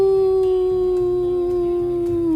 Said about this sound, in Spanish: El lobo del desierto.